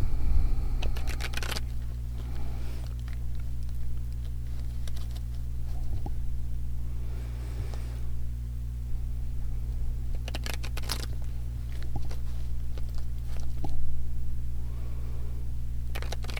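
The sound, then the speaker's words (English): Cards shuffled by hand give a couple of brief, soft riffling bursts, separated by long gaps. A steady low hum and a few faint clicks sit underneath. “The cards aren't even like shuffling properly for me.”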